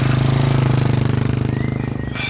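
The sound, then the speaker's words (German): A motorcycle with a sidecar drives away, its engine a loud, low, rapidly pulsing chug that holds steady and eases slightly toward the end. “Dann stieg er selbst aufs Motorrad und fuhr davon.”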